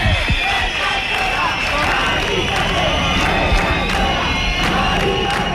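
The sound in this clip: A protest crowd at a housing eviction where neighbours and demonstrators were gassed: a continuous, loud mass of shouting and cheering voices, with no pauses across the whole stretch.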